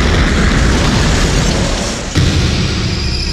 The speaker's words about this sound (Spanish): El avión va a explotar, va a explotar.